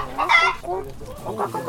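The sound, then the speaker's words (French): Chickens clucking in a garden, a jumble of throaty, rising and falling clucks and squawks from several birds, fairly loud and close-sounding throughout. “Au revoir les poules.”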